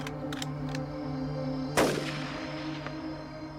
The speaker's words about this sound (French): On lui tira alors une balle à son tour.